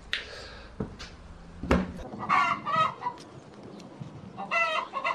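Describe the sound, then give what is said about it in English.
A hen clucks loudly while laying an egg, giving a few sharp, throaty calls over faint background noise with a couple of brief knocks. “This is the sound of a hen laying.”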